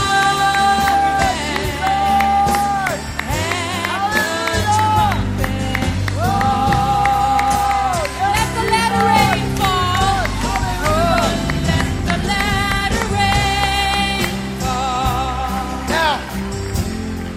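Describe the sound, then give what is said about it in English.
Church audience clapping and shouting to welcome Him during a lively worship service, with loud music and voices throughout and a dense crowd wash underneath. “Can we welcome Him? Can we clap our hands and shout? Come on, lift up a shout.”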